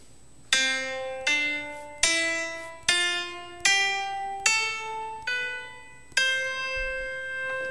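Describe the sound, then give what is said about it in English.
A C major scale is played on a tiny piano, eight notes stepping upward one at a time. Each note is struck cleanly, rings bright and decays, and the final top note is held longest. “C major is made up of the following notes. It's C, D, E, F, G, A, B, and C. No naturals, no flats, no sharps, okay? So that is going to sound like this.”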